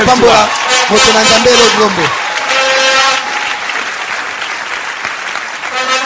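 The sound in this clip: Congregation applause in a church, with dense clapping throughout. A voice speaks over the clapping for the first two seconds, then the applause continues alone and eases slightly toward the end.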